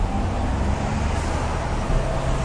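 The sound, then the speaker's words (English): Cars passing on a busy city street, a loud, steady traffic rumble with continuous engine and tire noise and no distinct single pass-by. “Okay, I guess you just have to cross. Cars keep coming.”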